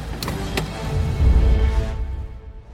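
A car starts up and pulls away on the order to drive off. Two sharp clicks open it, then a low engine rumble swells and fades as the car moves off.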